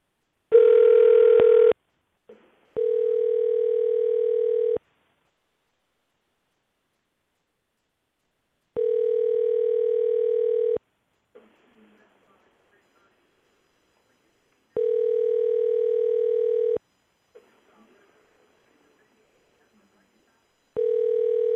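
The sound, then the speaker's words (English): Ringback tone sounds on an outgoing telephone call. It comes as repeated two-second tone bursts separated by long silent gaps: three full rings and the start of a fourth, after a brief different tone at the beginning. “Let's call Rick Gailey again. Let's see if Coach is available.”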